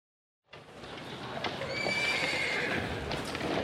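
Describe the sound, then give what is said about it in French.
A horse neighs amid clip-clopping hooves, a story sound effect for a rider mounting and setting off at a run. A brief silence gives way to a steady, loud patter of hoofbeats, with a high, drawn-out whinny in the middle and no talking. “Il monte sur le dos du cheval et lui dit « Allez, mon gros, tu as assez mangé. » « Cours maintenant, je dois être à Paris demain !»”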